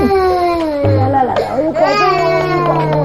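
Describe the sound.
A baby who has just been woken cries in sustained, wavering wails that run on for about three seconds.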